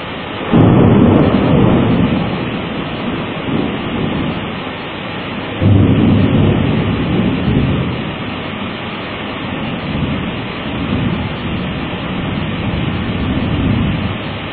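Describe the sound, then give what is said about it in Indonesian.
Thunder rolls through a rainstorm, with two heavy booming rumbles, one near the start and one midway, plus softer swells of rumble over a constant rain hiss. “Apa doanya petir?”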